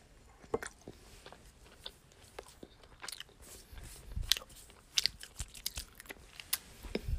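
Eating strawberry vanilla icing produces many irregular wet chewing and biting sounds, with crisp, sticky clicks scattered throughout at a close, quiet level. No one speaks.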